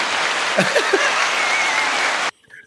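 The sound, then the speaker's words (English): Steady, dense applause as a continuous even wash of many hands clapping, which stops abruptly just before the end. “definite applause for us talking about this.”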